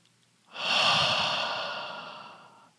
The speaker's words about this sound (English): Feel that belly full. And then release the breath.